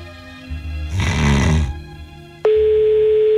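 Telephone tone heard while calling a switched-off mobile phone. A brief rushing noise comes first, then a steady, loud, single-pitched tone begins abruptly and holds unchanged to the end.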